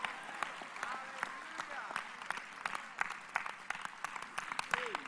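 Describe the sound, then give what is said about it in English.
Church audience clapping along in many sharp, uneven hand claps, with a voice talking over the clapping throughout. “Everybody clap your hands. Give God a praise.”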